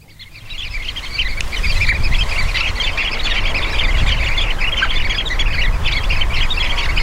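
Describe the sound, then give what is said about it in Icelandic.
Sanderling (Calidris alba) calls: many short, high chirps overlap continuously for the whole clip over a steady low rumble. “Já, Calitris alba. Og ég held að við ættum jafnvel bara að vinda okkur í hljóðið.”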